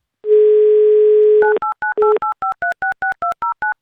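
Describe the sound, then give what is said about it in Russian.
A steady telephone dial tone holds briefly, then gives way to a rapid, evenly spaced run of short touch-tone beeps as a number is dialed for a radio call-in. “Давайте узнаем у нее лично, наберем ее номер.”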